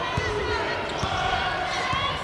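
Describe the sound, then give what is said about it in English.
A basketball dribbled during a game: three dull, evenly spaced bounces thud under a commentator's steady play-by-play voice. “Guarded out front by Blakely. Still on the dribble, works off a screen.”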